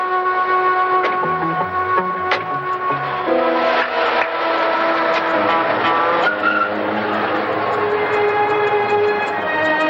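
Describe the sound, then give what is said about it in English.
A car runs with a loud, steady engine and a high tonal whine with squealing tones that last throughout. “Leaving the two patrolmen, Dan and his partner Charlie get into their car.”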